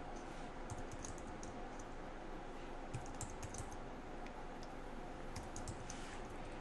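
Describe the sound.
Quick, irregular key presses patter on a computer keyboard, fairly faint and steady throughout, with small bursts of clicks.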